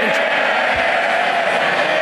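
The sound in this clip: Cheering and shouting from the Labour benches, a dense, continuous roar of many voices that holds at a steady loud level throughout.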